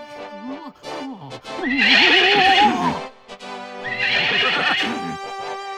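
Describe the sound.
A horse neighs twice, two loud, shrill, quavering whinnies that each last over a second, separated by a brief pause.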